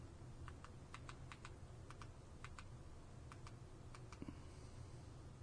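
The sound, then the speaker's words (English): Typing a search into a computer keyboard: many quick, light key clicks in uneven bursts, faint throughout, with no talk. “Yeah, go up to search. And just literally type in opportunities and they'll both come up.”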